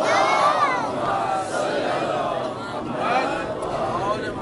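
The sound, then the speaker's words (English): A gathering loudly recites salawat in unison during a religious talk, many voices chanting together in swelling waves at steady volume. “So inshallah, we'll proceed if you send a loud salawat.”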